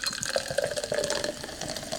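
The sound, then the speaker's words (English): Sparkling water pours into a glass in a steady, splashing trickle with fizzy, bubbling texture. It keeps a moderate, even level throughout. “I'm going to pour a nice glass of sparkling water,”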